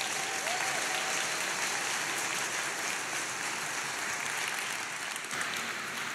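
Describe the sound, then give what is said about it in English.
An audience claps in sustained applause to welcome a guest speaker, Dr. John Walton, at a morning gathering. The clapping stays dense and even from start to finish. “would you guys just put your hands together and help me welcome Dr. John Walton this morning.”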